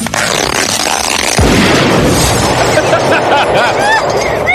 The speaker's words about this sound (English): Exploding Barbie's filled with plastic explosives, so when you pull her hair...